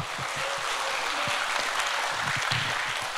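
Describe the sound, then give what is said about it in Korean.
Dense, steady applause fills the whole stretch as an audience claps for performers at a pansori performance during a festival. “김유리씨이준영씨를다시큰박수로모셔보겠습니다”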